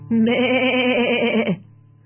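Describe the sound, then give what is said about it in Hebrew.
A sheep bleats in a children's farm song: one loud, sustained, wavering bleat that stops abruptly over a low steady tone. “ובחווה הייתה כבשה, איה איה או, והכבשה פועה”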